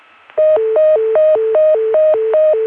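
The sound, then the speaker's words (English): Telephone deedle tone over a T-carrier trunk from Richmond: a steady, clean warble that alternates between a higher and a lower pitch, with about six repeating cycles after a brief quiet start. No other sounds are present. “Now, we were just hearing the deedle from Richmond, which sounds like this.”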